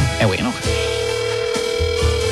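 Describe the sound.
Ringing tone heard on an outgoing phone call: a steady, unbroken mid-pitched tone that starts just over half a second in and holds to the end. A voice-like sound precedes it, and brief overlapping sounds break in near the end.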